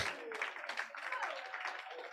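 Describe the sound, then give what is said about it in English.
Congregation applause during a church sermon: a fairly steady wash of many hands clapping at moderate level, with voices audible over it. “Clap for the Lord Jesus.”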